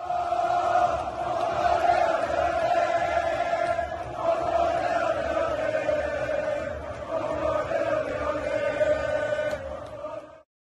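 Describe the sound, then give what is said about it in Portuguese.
Intro jingle for a Botafogo football fan show, a loud sustained stretch of echoing crowd-like chanting that holds steady for about ten seconds before cutting off abruptly. “Enquanto vocês vão colocando aí, vou colocar a vinhetinha aqui do JP, tá?”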